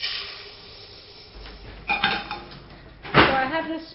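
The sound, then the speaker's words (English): Metal utensils clink and scrape against dishes as sugar is measured in a chef's kitchen in Copenhagen, a few sharp metallic knocks scattered among quieter handling, the loudest coming near the end. “Okay, so I'm measuring some sugar.”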